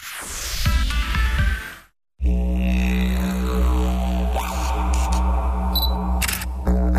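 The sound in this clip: Camera shutter clicks from a camera or smartphone: a few sharp mechanical snaps over a steady tonal backdrop. A brief silent gap comes early on.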